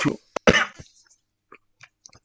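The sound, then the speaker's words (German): A person sputters and coughs after choking on their own saliva: a few harsh, sharp bursts in quick succession, followed by faint throat clicks and small wet sounds that trail off into near silence. “Alter, was war das? Das war noch nicht mal ein Husten. Ja, habe mich mit meiner eigenen Spucke verschluckt.”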